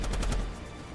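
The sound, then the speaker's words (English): A rapid burst of gunfire from a heavy bolter slammed down on top of a trench: several loud, evenly spaced shots in quick succession, then a rumbling fade. “Occasionally slamming her heavy bolter down on top of the trench to let out a huge burst of gunfire.”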